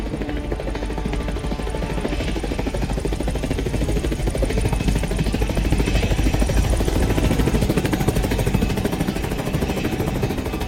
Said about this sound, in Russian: Вертолет поднялся в воздух с экипажем Коли и капитаном.